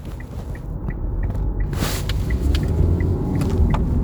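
A moving car gives a steady low rumble and broad road hum, with one brief whoosh near the middle and no talk.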